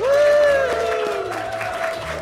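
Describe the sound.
A live audience of friends and family cheers with a long, rising then falling chorus of "woo" voices over a bed of clapping, loud at first and slowly tapering off.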